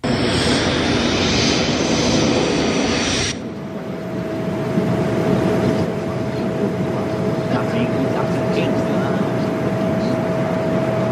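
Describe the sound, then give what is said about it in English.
An airplane flying in the sky gives a loud, steady engine roar with a constant hum. The roar dips briefly after a few seconds, then carries on. “Then a different plane in the sky and Sydney and Dixon are on that plane.”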